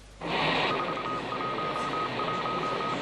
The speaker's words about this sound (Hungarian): Ez volt az első üzenet az első magyar műholdról, a MASZATról. Az 1000 kilométeres magasságból érkezett jeleket az űrkutató csapattagja fordította le.